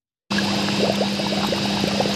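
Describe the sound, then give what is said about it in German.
Beer wort bubbling and steaming in a brewhouse in Brooklyn: a steady, dense hiss with faint gurgling pops over a constant low hum. “Im Brauhaus der Talea Brewery in Brooklyn blubbert und dampft es.”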